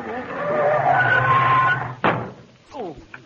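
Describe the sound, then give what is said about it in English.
Car tires screech in a long, loud skid as the brakes are slammed, a harsh squealing that holds steady for about two seconds before a sharp thump cuts it off, followed by quieter scattered noises. “slam your brake”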